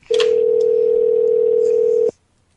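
A telephone dial tone sounds before a call back. The steady, even mid-pitched hum holds for about two seconds and then cuts off abruptly into near silence.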